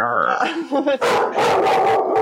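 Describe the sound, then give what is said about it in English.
A dog barks during an online conversation about smartwatches. Loud, rough bursts of barking follow an opening stretch of whining, howl-like yelps. “Obviously, the dog has something to weigh in here on the Apple Watch.”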